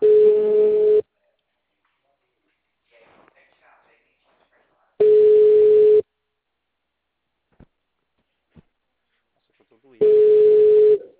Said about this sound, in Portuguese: Tô ligando pra ela aqui agora.